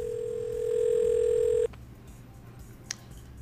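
A steady telephone dial tone at the start of a call, holding one even pitch for about one and a half seconds before cutting off abruptly into quiet, with no talk.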